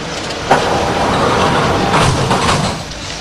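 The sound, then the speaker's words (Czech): A steady, loud rumbling roar comes from a train as its doors close and it pulls away, with a brief thump near the start. “ukončete výstup a nástup, dveře se zavírají.”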